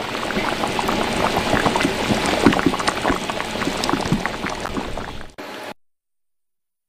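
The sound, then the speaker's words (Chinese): Vigorous bubbling of pork belly simmering in a pot for hours, its excess fat rendering out: a dense, steady stream of popping bubbles, fairly loud and unbroken, that stops abruptly near the end and leaves silence. “两个小时后，多余的脂肪被煮出，把子肉已经软糯，”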